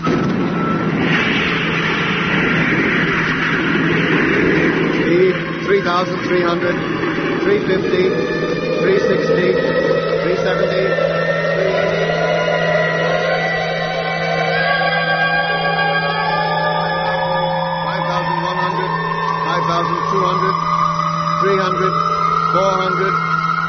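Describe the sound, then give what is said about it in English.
A spaceship's rocket motor, staged as a science-fiction sound effect, roars as a steady, loud blend of rushing noise and a low hum, with a whining tone that climbs slowly in pitch throughout. “Well, stand by to switch in motor. Standing by. 1 degree. Contact.”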